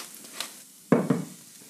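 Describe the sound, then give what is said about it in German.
A seasoned mixture of whole button mushrooms and onion, salted and peppered, sizzles softly in a pan while a utensil stirs it, with two sharp scraping strokes close together near the middle. “Und jetzt rühren wir das mal um, die gewürzte Mischung.”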